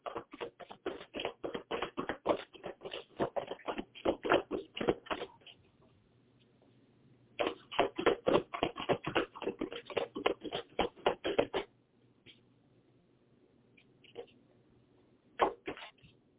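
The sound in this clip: Cards from a second deck are shuffled for a card reading: two long bursts of rapid, crisp papery clicks separated by a short pause, followed by a few scattered clicks and taps.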